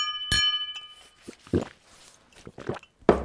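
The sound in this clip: Glasses clink together in a toast, one bright ringing clink near the start whose tone lingers briefly before a few fainter knocks follow.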